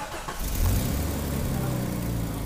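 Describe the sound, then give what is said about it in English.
A healthy car engine runs smoothly, presented as the sound a car should make as cold winter weather arrives. The loud, low rumble swells briefly early on, then settles into a steady, even drone. “With the cold weather kicking in, you want to make sure your car sounds like this”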